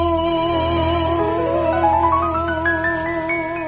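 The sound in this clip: An electronic telephone ringtone signals an incoming call, with a quick ascending run of bright tones climbing in pitch over a steady sustained backing.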